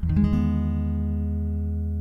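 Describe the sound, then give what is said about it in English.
A guitar sounds an E major 7 chord fretted at the 4th fret, struck once and left ringing, its bright attack fading into a steady sustained tone over about two seconds. “From here we drop to the 4th fret as Dylan plays an E major 7, which sounds like this.”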